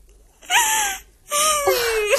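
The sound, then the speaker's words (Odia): A person crying alone: two drawn-out, tremulous wailing sobs with a high, wavering voiced pitch, separated by a short pause and fairly loud. “ମୁଁ ଜାଣେ ପରା ତୁ ଏଇଠି ଏକା ଏକା ବସି ଏମିତି କାନ୍ଦୁଥିବୁ।”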